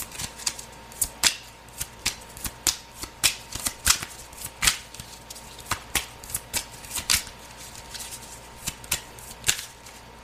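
Tarot cards being shuffled and handled, a long run of crisp, papery snaps and riffles that come in quick, uneven bursts, moderately loud and with no voice over them.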